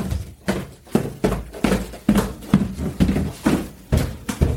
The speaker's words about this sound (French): maintenant je vous emmène en voyage en empruntant de nouveau nos magnifiques escaliers